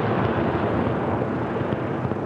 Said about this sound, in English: You're looking at an Iron Dome missile on its way.